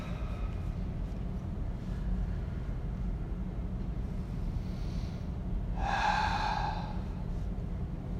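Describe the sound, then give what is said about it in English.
Deep breaths drawn in through the nose and let out through the mouth during a guided meditation. The airy breathing is faint over a steady low hum, with one clearer voiced, sighing exhale near the end. “We take three deep breaths in through the nose, filling the body, out through the mouth.”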